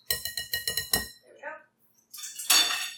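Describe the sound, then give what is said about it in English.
A utensil clinks against a bowl while wet ingredients are stirred before being folded into whisked flour. A quick run of about six rhythmic clinks is followed by quieter sounds and then a louder burst of noise. “I'm just going to give them a stir real quick before I do that, just to make sure nothing's settled on the bottom.”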